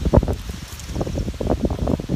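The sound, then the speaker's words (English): Outdoor wind gusting against a camera microphone, a continuous rough low rumble with uneven buffeting bursts throughout. “There's a good indicator of the outdoor troubles, right? The wind going to blow the camera over here.”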